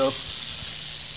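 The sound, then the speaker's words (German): An angry red diamond rattlesnake gives a steady, dry, high buzzing hiss that stays even and unbroken throughout the short clip. “Das ist unsere rote Diamantklapperschlange, eine der 2 häufigsten Arten hier. Sie ist ziemlich sauer, will unbedingt in diese Garage, aber daraus wird nichts.”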